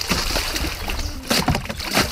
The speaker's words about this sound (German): wie lange habt ihr mit dem Floßbauen gebraucht? Wir haben jetzt schon 2 Stunden dran gearbeitet und jetzt sind wir fertig und bringen es ins Wasser.